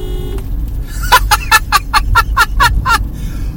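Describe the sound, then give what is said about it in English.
Toyota Prius car horn honked in a quick string of many short, reedy, nasal toots, evenly spaced and fairly loud. “I'm going to hit the horn because I want to.”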